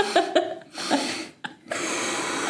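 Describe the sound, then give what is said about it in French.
Breathing exercise: quick, sharp breaths drawn in through the nose, then a longer, steady breath out. A few brief voiced, laugh-like sounds come early, between the breaths. “apparemment, il faut inspirer une fois très longtemps par le nez et souffler deux fois. Je crois que c'est le contraire. C'est le contraire. Il faut inspirer deux fois.”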